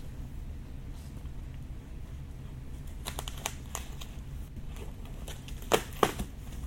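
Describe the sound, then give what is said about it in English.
A pocket knife cuts open a standard white cardboard shipping box sealed with regular tape: faint, sparse crackling and scraping clicks over a low background, with a few sharper snaps near the end. “So I'm opening the box because this knife just cuts through anything.”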